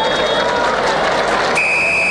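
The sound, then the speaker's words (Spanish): A referee's whistle ends the first half of a football match at the Estadio Nacional, a shrill sustained tone cutting through constant crowd noise and lively commentary. “Pitazo final.”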